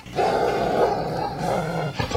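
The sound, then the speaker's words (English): A small dog growls in a low, steady rumble that holds, fairly loud, for nearly two seconds. It ends in a short, breathy break. “I'm here with my little dog, Tiny.”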